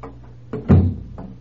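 A bedroom door opened softly at night gives a few quiet clicks and a muffled thump in the middle, all low and brief, with no voices.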